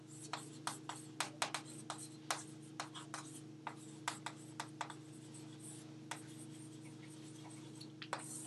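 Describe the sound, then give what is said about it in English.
Faint writing sounds come from someone jotting down a note during a programming lesson: a series of short, scratchy strokes at an uneven pace over a low, steady hum. “So I'll write that.”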